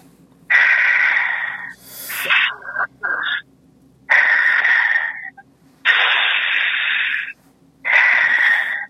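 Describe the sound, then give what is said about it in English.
Heavy breathing in and out during a guided prayer and healing session: several long, loud, breathy rushes of air, each separated by a short pause. “Just breathe in and out 5 times heavily. Try again. Breathe in and out 5 times heavily.”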